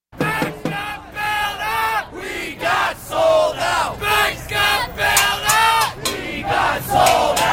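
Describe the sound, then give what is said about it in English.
An Occupy Wall Street protest crowd chants in New York's financial district in fall 2011. Many voices shout short rhythmic phrases over and over in a steady, loud cadence. “Fall of 2011, thousands camped out in New York's financial district, Occupy Wall Street. Here's some of that sound.”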